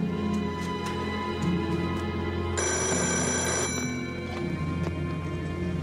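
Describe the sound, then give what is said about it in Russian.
A telephone bell rings in one sustained, bright burst of about a second and a half over a steady tonal background hum, with no voices. “Звонит Кречетову.”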